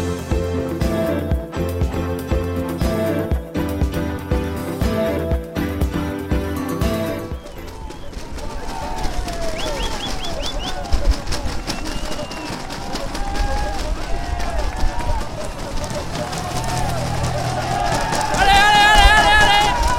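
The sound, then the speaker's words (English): Crowd noise at the mountain summit finish of a Tour de France stage on the Col du Portet: after a stretch of music, a dense, continuous crowd roar with mixed voices and chatter builds slightly louder toward the end. “we opened there with the noise from the summit at the finish of the day, the top of the Col du Portet”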